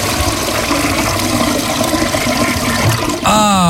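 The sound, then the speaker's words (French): A toilet flushed again after cleaning the pipes: a loud, continuous rush of water, then near the end a sudden surge with hissing and a whistling tone that climbs in pitch. “Attends, je retire un coup la chasse là. On vient de nettoyer là. Voilà, on nettoie la tuyauterie là.”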